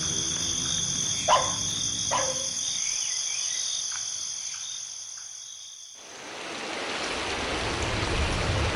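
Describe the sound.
A flowing river and falling rain make a broad steady hiss that swells in the latter part, after a stretch where high insect chirps and a few sharp clicks stand out over a quieter wash.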